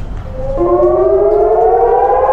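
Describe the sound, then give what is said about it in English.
A civil defense siren warning of a rocket attack in Eilat, southern Israel, starts up and wails loud and steady, its tone rising at the onset and then holding a sustained, slowly climbing pitch with no other sounds. “When sirens warn of a rocket attack, residents of Eilat in southern Israel have about 30 seconds to get a shelter.”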